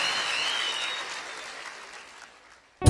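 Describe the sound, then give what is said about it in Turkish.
An audience's applause fades steadily from a lively clatter to near silence over a few seconds, then a sudden loud burst of another sound cuts in at the very end. “Alkışlar Orhan Baba'ya gelsin.”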